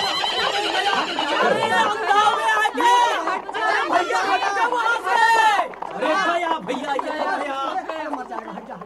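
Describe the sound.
A runaway horse neighs in a crowded street while many people shout and chatter loudly throughout, staged as a radio drama.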